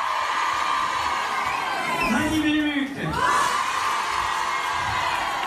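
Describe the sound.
A crowd of fans screams and cheers at an autograph signing in Lille with the cast of a French daily TV soap. Loud, continuous high-pitched shrieks and whoops blend into a dense roar of many voices.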